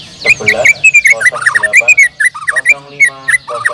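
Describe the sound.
A white-rumped shama sings at a numbered bird-song contest, pouring out loud, varied whistles that slide up and down, mixed with rapid chattering and trilled notes.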